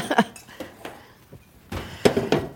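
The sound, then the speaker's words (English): Clattering of a heavy cooking pot of chicken in stock and its lid, just taken from the stove, with several sharp metallic knocks and scrapes, the loudest cluster coming near the end. “Want to take the lid off?”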